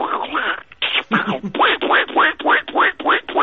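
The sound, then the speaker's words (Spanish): A voice imitates a cartoon duck quacking, producing a long rapid run of raspy, nasal squawking syllables in an even, bouncing rhythm, loud and alone without ordinary speech. “yo sé que algunos personajes los imitas muy bien, a ver qué tal el Pato Donald, cómo se te da”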